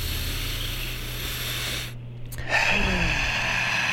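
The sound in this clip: A deep breath drawn in through the nose during a guided breathing exercise, a steady airy hiss that holds for several seconds, dips briefly, then continues more brightly.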